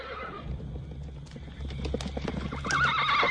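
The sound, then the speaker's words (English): Spooked horses at an isolated farmstead at night: scattered hoof clops build in loudness before a shrill neigh breaks out near the end, with no voices. “Later that night, something spooks the horses at an isolated farmstead.”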